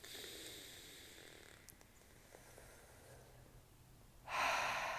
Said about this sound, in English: And I want to take a deep breath with you here in this moment to receive this.